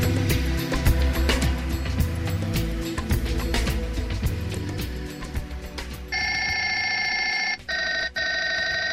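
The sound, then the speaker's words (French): Telephone ringback tone from a call placed from Prague to a Czech cultural centre in Paris: a stretch of dense, clattering mechanical noise gives way to a steady buzzy tone for the last third, broken by two short gaps. “Allô Paris, ici Prague. Radio Prague appelle le centre tchèque de Paris.”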